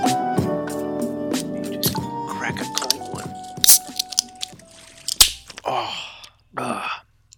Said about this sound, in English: Cracking open this falafel.